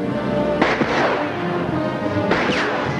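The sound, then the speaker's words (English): Bandits fire gunshots across rocky ground. Two sharp, loud cracks land about two seconds apart, each followed by a falling whine, over a constant noisy background. “Bullets from the bandits pelt the dirt all around him.”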